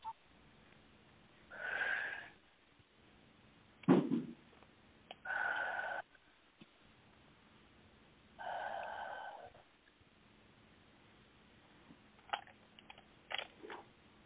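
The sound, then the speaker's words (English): Deep breaths taken during a guided breathing exercise come as a few soft, airy inhales and exhales spaced several seconds apart. They are faint, with no talking. “And now take three deep breaths.”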